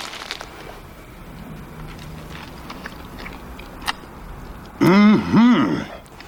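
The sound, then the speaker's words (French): Soft crunching bites and chewing come from a person eating a Landes-style hamburger, followed by a short, loud vocal sound near the end. “Ça, c'est le hamburger qui prouve la belle santé des Landais. Ils sont corrects. Tu permets que je goûte?”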